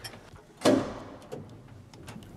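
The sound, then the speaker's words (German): A single sharp metallic clack as the doors of an old, nearly original-condition elevator are locked by hand. It rings briefly and decays, followed by a few faint clicks. “So, Türen müssen wir von Hand verriegeln. Zack, so.”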